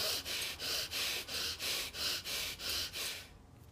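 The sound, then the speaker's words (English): Fire breaths: rapid, forceful rhythmic breathing in a steady series of many short, sharp puffs of airy breath noise, evenly spaced and loud, ending in quiet. “Let's go to five fire breaths.”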